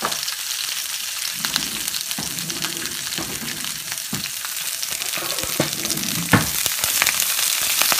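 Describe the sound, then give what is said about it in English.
Vegetables stir-frying on high heat in a smoking-hot pan with dried chilies, a dense, steady sizzle punctuated by many sharp clicks and scrapes from stirring, loud and unbroken throughout. “I want to stir fry this on high.”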